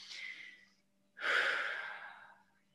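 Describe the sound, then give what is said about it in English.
A deep, slow breath drawn into the stomach with the diaphragm: a soft airy inhale, a short pause, then a longer and louder breathy exhale that fades away, alone and without talk. “that's a very deep, slow breath right into your stomach using your diaphragm”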